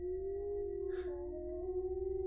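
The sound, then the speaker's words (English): Wolves howl in a single long, sustained cry that wavers and dips slightly in pitch. It is quiet and heard alone, with no voices. “Wolves? This far out of the frontier?”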